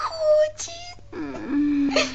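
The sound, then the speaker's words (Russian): Crying in two drawn-out, wavering wails, each a whimpering, moaning cry with a quivering pitch, loud and close, separated by a brief gap. “Тише. Ты своим плачем разбудил девочку.”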